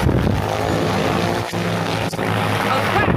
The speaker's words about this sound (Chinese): 现在不一样了，看这个飞机啊